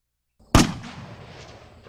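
A single gunshot rings out during a chase through mountain forest as a fleeing man is hit in the calf. It is a loud, sharp crack followed by a long decaying tail that fades over more than a second, with no talk.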